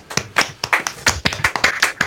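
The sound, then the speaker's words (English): A round of applause for a quiz contestant who scored eight points: distinct, fairly sharp claps from a small group, about a dozen in quick, uneven succession. “Round of applause”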